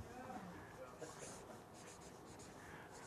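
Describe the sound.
Marker or chalk strokes scratch across a board in quick, continuous, faint bursts while a person talks quietly.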